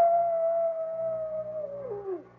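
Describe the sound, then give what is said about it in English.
A coyote howls on a moonlit night in one long, fairly faint note that holds steady before sliding downward at its end. No voices. “Hey, you know what that coyote's howling about? He just calling for his lady friend.”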